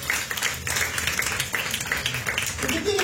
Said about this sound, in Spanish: Denle una ofrenda de palmas. Fuertes a nuestro Dios, iglesia.